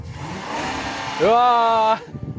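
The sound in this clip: A car engine revs as the gas pedal is pressed, a sudden loud tone that climbs in pitch and holds steady for under a second before cutting off, over background noise and voices.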